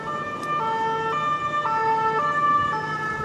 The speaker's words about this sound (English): more emergency vehicles arriving here, and that's really been the scene all day.